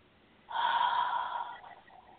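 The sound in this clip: A single small, soft inhalation is taken during a guided meditation. It is quiet and airy, swelling briefly and then fading, with no talk over it.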